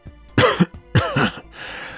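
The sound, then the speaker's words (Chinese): An older man coughs twice, two short throaty bursts of similar loudness separated by a brief pause. “穆老爷也看到了，他咳了两声才缓缓地问道”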